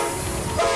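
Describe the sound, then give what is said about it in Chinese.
Rumble of a China-Europe Railway Express freight train departing: a brief, loud, steady rolling rumble of rail wagons, with a tonal horn-like note entering near the end. “这是中欧班列出发的声音”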